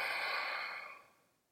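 A soft exhaled breath during a guided side-tilt stretch, a quiet airy rush that fades away over about a second.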